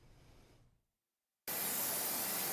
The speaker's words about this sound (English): A temple worker regularly sprays the whole place with alcohol, disinfecting every inch of the altar.